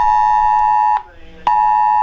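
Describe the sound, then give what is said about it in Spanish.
An SAE emergency alert warning tone sounds as a loud, steady, piercing beep with bright harmonics. It cuts out briefly for about half a second in the middle, then resumes just as loudly. “En este momento está sonando SAE, alerta de emergencia. Puedo obviamente dejar de que suene, pero para que escuche que así suena.”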